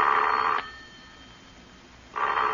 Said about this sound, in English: There's nobody on the line, you see? Because the four numbers I just dialed make your own phone ring.